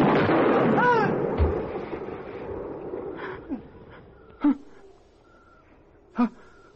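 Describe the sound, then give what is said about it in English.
Gunshots: two sharp, loud bangs ring out a little under two seconds apart, preceded by fainter knocks and some strained vocal sounds. “I told you I'd shoot. I told you!”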